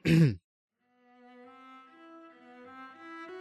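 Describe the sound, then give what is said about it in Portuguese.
A single short, rough throat clearing bursts out alone, then quiet sustained tones come in and slowly step upward after a brief silence. “coçava a garganta.”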